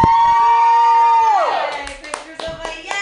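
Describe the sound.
Applause from a comedy club audience: a loud voice trails off in a falling shout, then a few scattered, sharp hand claps ring out.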